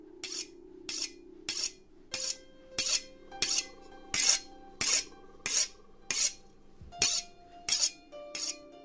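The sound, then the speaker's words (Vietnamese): Knife blade scraped across a stone in the corner of a hut: many quick, evenly spaced rasping strokes, each a bright hiss, with faint metallic ringing tones lingering between them. “Thấy vậy, tên kia nghiến răng nghiến lợi, lướt con dao qua cái cục đá cây ở góc chòi.”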